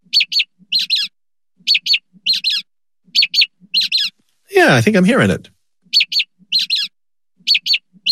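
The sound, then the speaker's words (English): A mockingbird sings short, high chirping notes in quick pairs and small clusters, repeated at a steady rhythm, with a brief spoken voice breaking in midway. “Here's a mockingbird again playing two otherwise identical sounds, but shifting the pitch.”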